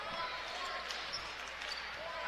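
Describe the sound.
Faint, steady thumps of a basketball being dribbled near the half-court line during a game, low in level beneath a constant background din.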